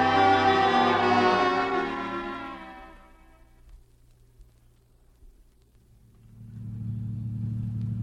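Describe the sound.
A car driving: a loud engine rumble that gradually fades to near quiet, then a low, steady rumble swells back up.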